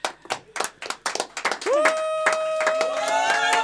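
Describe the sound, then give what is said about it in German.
Festive clapping from people celebrating in a kitchen: a series of quick, rhythmic hand claps, followed by a sustained, held voice-like tone that carries on under continued clapping. “ihr hört schon die ganze Zeit die Küche im Hintergrund jubeln und feiern.”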